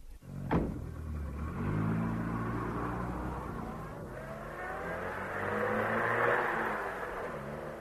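A police car's engine drives away, a steady low motor drone with layered harmonics that revs higher toward the end, heard alone with no talk.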